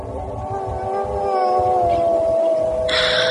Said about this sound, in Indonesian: Aku hanya membuka mataku, dan kali ini aku mendengarkan suara tangis itu.